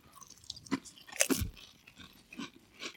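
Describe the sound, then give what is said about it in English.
Crunching of shrimp cocktail flavoured Pringles crisps: a few crisp, brittle bites followed by quieter chewing, faint and close, with no talk over them. “No, it's shrimp cocktail in a Pringle.”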